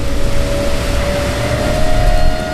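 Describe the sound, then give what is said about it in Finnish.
A P12 water bus lifting off the water onto its hydrofoils at about 17 knots: a loud, continuous engine drone with a steady tonal whine running through it. “meillä on 17 solmun nopeutta ja vene lähti nyt kokonaan irti vedestä.”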